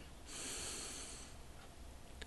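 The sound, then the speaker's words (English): A deep inhaled breath during a guided relaxation session, one soft, airy intake lasting about a second, then near quiet. “And we take a deep breath in,”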